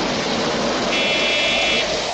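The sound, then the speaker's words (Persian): Heavy rain pouring down hard, a loud, dense and constant hiss that stays steady with no breaks or talking throughout. “بارون داره مثل سیل میاده”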